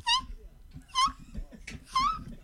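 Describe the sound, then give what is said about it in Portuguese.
A man's voice imitates a dog being run over, giving three high, whining yelps with strong harmonics spaced roughly a second apart, each rising sharply and then trailing off. “Que isso, cara? É um cachorro sendo atropelado? Pode ser. Faz de novo aí pra gente ver, vai.”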